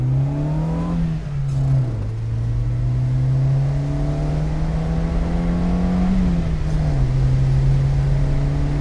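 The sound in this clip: Droning engine of a Syrena roadster accelerating along a road, a steady buzzy harmonic tone whose pitch climbs gradually, dipping briefly twice before rising again, with no voices over it.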